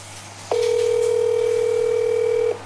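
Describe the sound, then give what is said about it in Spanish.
A steady telephone dial tone sounds during a live call to someone. One unbroken mid-pitched tone starts abruptly, holds for about two seconds and cuts off cleanly over a faint low hum. “Estoy llamando. Estamos llamándolo en vivo, señor rector.”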